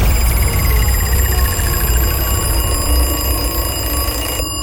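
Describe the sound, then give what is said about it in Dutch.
A radio station's ticket alarm jingle with a ringing bell for the Veronica Douwpop ticket giveaway: a rapid string of bright ringing tones steps steadily downward in pitch, then cuts off abruptly near the end. “Dat is het ticketalarm, als je dat dus hoort, dit geluid. Nu nog niet, maar dit. App dan met de Veronica-app Douwpop. Of bel, want er zit tenslotte een belletje in, hè?”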